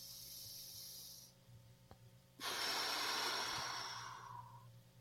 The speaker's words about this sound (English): I think I can breathe pretty deep through my nose, I think. Anyways. Let me try.